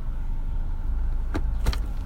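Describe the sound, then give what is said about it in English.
A car driving: a steady low rumble of engine and road noise fills the whole stretch, with two brief higher clicks near the end. “Currently driving, as always.”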